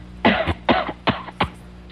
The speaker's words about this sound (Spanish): tiene que toser más duro, chico. Por un catarro así no se puede pedir ni 350, chico.